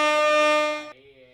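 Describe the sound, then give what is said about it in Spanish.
A single sustained vehicle horn blast, bright and buzzy with strong harmonics, that drops abruptly to a quieter, lower tone near its end before cutting off. “toca la bocina, si vas para la playa”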